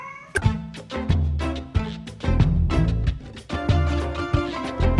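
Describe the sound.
A cat meows again and again in a run of loud, wavering cries with hardly any pause between them, over a steady low rumble.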